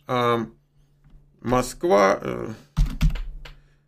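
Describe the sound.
Keyboard typing as a Moscow postal address is entered: a few quick, crisp key clicks heard under and after ongoing speech.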